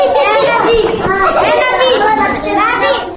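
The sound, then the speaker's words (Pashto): Children at play inside a women's prison, their many overlapping voices chattering, calling and laughing in a loud, continuous stream with no pauses. “تاسو د هغو ماشومانو غږ اورئ چې د بادام باغ په خزینه زندان کې ژوند کوي.”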